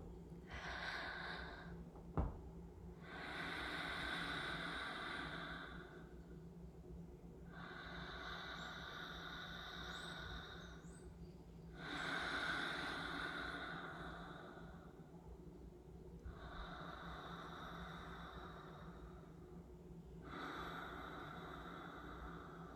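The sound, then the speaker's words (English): Slow, deliberate breathing during a breathwork exercise, long drawn inhales alternating with long exhales over several even cycles, soft and airy with brief pauses between and one small click early on. “Inhale. Exhale. Inhale. Exhale.”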